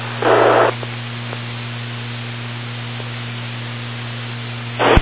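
Static and a steady electrical hum from a radio repeater that has timed out. A short burst of hiss comes at the start and another at the end, with the low hum and faint noise continuing between them.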